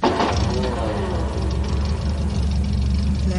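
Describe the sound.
An old car's engine running after being started with the starter, giving a loud, steady, low rumble with a rough, throbbing texture that holds evenly throughout.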